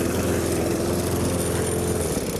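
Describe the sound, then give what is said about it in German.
A lawn mower drones steadily while mowing the grass of grounds around a pond, its engine a continuous, even, loud hum with a rough low buzz that never pauses. “Du hast aber viel zu tun, oder, wenn du das da alles mähen musst?”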